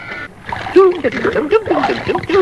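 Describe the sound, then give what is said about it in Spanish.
Water splashing as someone washes by hand, heard as uneven sloshes and splatters mixed with a voice speaking throughout. “Yo lavo y lavo tan ligero como puedo. Oh, perdóname, Pilón. No sabía que la ventanilla estaba abierta.”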